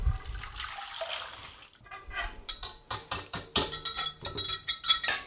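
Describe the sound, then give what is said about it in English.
Milk pours into a bowl for cinnamon roll oatmeal as a soft, continuous liquid splash and gurgle, followed by many quick, rhythmic clinks of a whisk striking the bowl. “Then I'm going to add the milk.”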